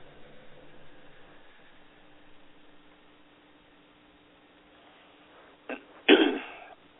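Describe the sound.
A person clears their throat because of a tickle in it. A short catch comes first, then a louder, raspy clearing. Before that there is only faint, quiet hiss.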